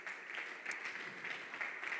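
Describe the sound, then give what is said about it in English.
A church audience claps their hands to the Lord during a worship service, a faint but steady, continuous patter of many hands with no voices standing out. “Everybody clap your hands to the Lord.”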